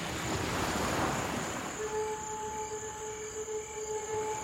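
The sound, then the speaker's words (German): An ocean wave breaks at a surf spot off an island coast: a broad rushing wash swells early, then eases into a softer steady whoosh under a faint, steady tonal hum. “Eine schöne Welle hat er gerade.”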